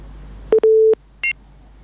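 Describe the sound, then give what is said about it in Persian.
Telephone line tones follow a caller being disconnected: a short beep, then a longer steady tone, then a brief higher dual-pitched beep. They are loud over a faint low hum. “تماس شنونده ما محمد عارف رحیمی قطع شد”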